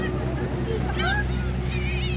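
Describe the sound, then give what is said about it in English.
A steady low engine drone of a ferry on the broad, calm River Han carries evenly throughout, with faint higher tones drifting above it. “A ferry ride along the broad, calm River Han.”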